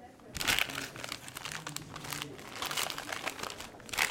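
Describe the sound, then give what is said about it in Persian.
Gift wrapping paper crinkles and tears as a present is opened, giving a run of crisp rustling bursts for about four seconds with a faint voice underneath. “خب حالا اگه اجازه بدین اول هدیه تدی رو باز کنم”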